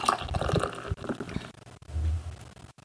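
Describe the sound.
Sips of canned beer being drunk, with soft wet sloshing and gurgling liquid sounds and a low swallow near the end, fairly quiet and without talk.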